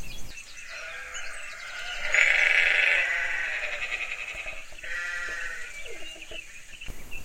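Sheep bleat in a few nasal, wavering calls, the strongest near the middle, fairly faint over a steady background hiss.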